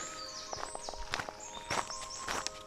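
Footsteps of two walkers on the Amtsbotenweg hiking trail between Königsberg in Bayern and Coburg on a damp May morning, a steady series of soft crunching steps with faint bird chirps above.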